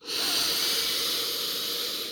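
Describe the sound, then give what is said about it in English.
A slow, deep breath during a guided wellness exercise: one long, steady, airy hiss of moving air that swells quickly and holds at an even level with no talking. “Now just take a breath with me.”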